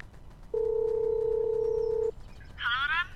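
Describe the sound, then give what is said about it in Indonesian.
A phone call to a classmate: a steady two-part ringback tone holds for about one and a half seconds, followed shortly by a brief warbling electronic trill over faint background hiss. “Bentar deh, aku telepon.”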